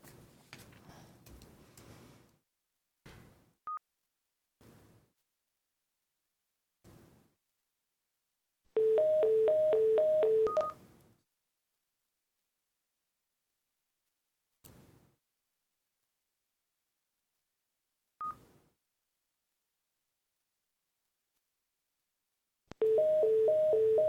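A telephone number being dialed on a keypad, heard as a quick run of paired DTMF beeps, then a second short burst of beeps at the end, with scattered soft clicks in the quiet gaps before them.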